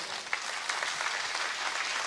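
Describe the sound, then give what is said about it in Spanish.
A church audience applauds after a sermon: dense, steady clapping that holds an even loudness for about two seconds with no pauses. “Dar un aplauso.”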